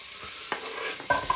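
Pancetta and onion sizzle in a frying pan, a steady, bright hiss broken by a few brief stirring scrapes.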